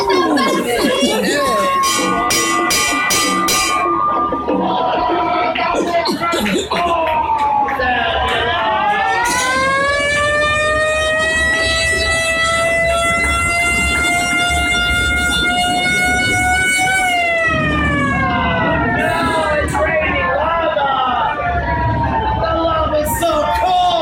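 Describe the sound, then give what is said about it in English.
Sirens sound within a Krakatoa volcano eruption effect on a theme-park ride. Several loud overlapping wailing tones sweep up and down over a constant roaring rumble, with horn-like blasts near the start. “Uh-oh, you hear that? It's Krakatoa. Krakatoa is exploding.”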